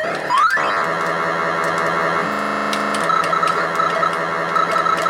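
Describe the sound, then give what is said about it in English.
Worms being shot in a video game give off buzzy, distorted electronic effects: a quick rising sweep at the start, then a dense warbling, crackling drone that carries on steadily to the end. “I like the noise the worms make when you shoot them. Yeah, that noise. It's sort of reminiscent of stepping on a worm after a rainstorm.”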